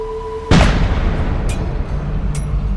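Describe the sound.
A heavy boom of cannon fire rings out during an enemy bombardment in a 17th-century town siege, trailing into a low rumbling roar broken by two sharper cracks.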